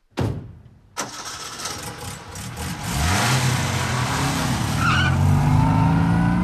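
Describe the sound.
An early motor car starting and driving off: loud opening bursts and clatter, then a rough engine note that climbs in pitch and settles into a steady, loud running drone.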